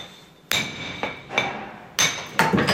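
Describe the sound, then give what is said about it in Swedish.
Sharp clinking blows of a large chisel struck against the side of a limestone block being shaped into a church cornerstone. Several bright metallic strikes land at irregular intervals, each ringing briefly, with no talk. “Han slår på sidan av stenen med en stor mejsel så att rätt stora bitar far bort.”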